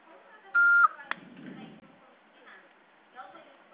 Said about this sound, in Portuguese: Após o sinal, fale o seu nome e deixe seu recado.